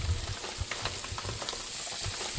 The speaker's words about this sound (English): starting with sautéing the onion in olive oil. So he's throwing some bay leaf into the onion as it's being sautéed.